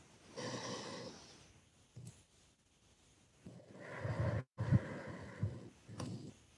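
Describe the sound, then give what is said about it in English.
A deep breath is drawn in and let out: quiet, airy rushes of breath in long, slow swells separated by a pause. “So if you would begin by taking a deep breath with me and let it out. And if it feels right, maybe gently place a hand over your heart and lungs and take another inhale.”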